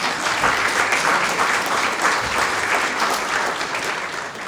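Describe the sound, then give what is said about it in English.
An audience applauds with dense, steady clapping that holds at an even loudness throughout, with no talking over it. “well, don't clap just yet.”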